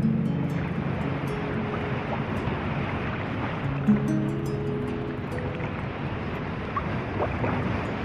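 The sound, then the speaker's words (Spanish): Steady low rumble and wash of water from a 63-metre boat with a 540-horsepower engine out at sea. Wind noise runs continuously through it at an even loudness. “Este barco en sí tiene 540 caballos de fuerza nada más. Las dimensiones, esto tiene 63 metros de eslora por 8 de manga.”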